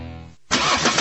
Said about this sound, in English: This is the sound of a car engine.